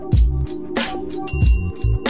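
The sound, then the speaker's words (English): A bell rings with a bright, lingering metallic tone, set among several low thumping sounds that come at a rough, uneven pace. “Ring the bell.”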